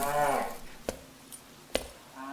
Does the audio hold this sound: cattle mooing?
yes